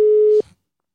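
A single steady electronic telephone tone is heard while calling someone. It holds at one pitch for under half a second, then cuts off with a brief soft click, followed by silence.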